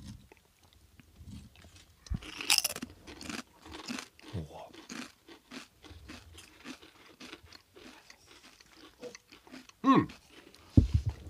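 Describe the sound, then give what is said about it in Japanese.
Crunchy chewing of crispy scorched cheese, brief crackling bites amid people talking and laughing, with a few louder crunches standing out. “とりあえず食べてみましょう、はい、食べてみましょう”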